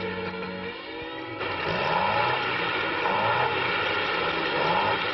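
Car engine struggling with carburetor trouble: a rough, steady mechanical drone that swells louder after about a second and then holds, with a wavering, pulsing tone throughout.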